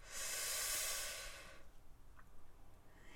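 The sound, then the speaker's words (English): A slow, steady breath drawn in through the nose during a guided breathing exercise. It is a soft, airy hiss lasting about a second and a half, then gives way to quiet with faint, small rustles. “One more time. In through the nose.”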